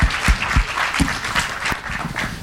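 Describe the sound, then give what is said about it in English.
Audience applause greets a guest at a live onstage event: a loud, dense burst of clapping with a few sharper individual claps standing out, steady for the whole stretch. “You can applaud again for Brian Selznick.”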